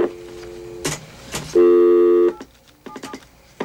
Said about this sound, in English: You have to dial 9 first, don't you?